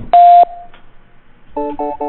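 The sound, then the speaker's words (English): A single steady, mid-pitched beep from a BT voicemail greeting lasts about a third of a second. After a pause come a few short buzzy electronic tones. “Please leave a message after the tone.”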